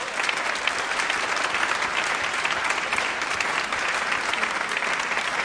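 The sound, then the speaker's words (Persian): An audience applauds a Quran reciter with dense, continuous clapping. The clapping stays steady and full for several seconds, without pause. “یه بار دیگه تشویقش کنیم.”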